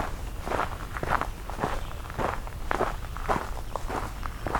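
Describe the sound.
Footsteps of a hiker on a trail, many steady crunching steps in an even walking rhythm, moderately loud and with no talking.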